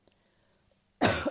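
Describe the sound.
A single sharp cough from a tickle in the throat breaks out loudly after near silence, a short burst with a brief second push at its end.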